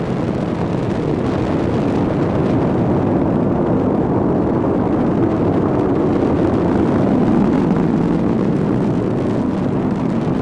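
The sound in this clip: A rocket's first-stage engines fire during launch, producing a loud, continuous low roar with broad rumbling noise. The sound stays steady and unbroken from start to finish.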